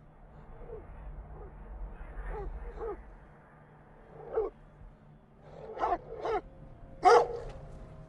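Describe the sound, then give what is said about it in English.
A dog barks at a man lying among trees, a few short sharp barks over a low rumble. The barks grow louder toward the end, and the last is the strongest. “the dog barking at him”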